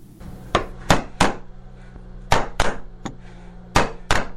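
Hammer-and-chisel strikes on wood as a craftsman in Nuristan, Afghanistan carves the national emblem into timber: about eight sharp, irregularly spaced knocks over a steady low hum.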